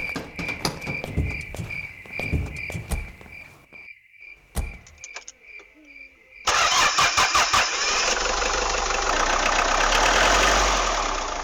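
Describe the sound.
A truck engine starts at night and settles into a loud, steady rumble that drowns out the crickets chirping before it, with a few clicks and knocks heard ahead of ignition.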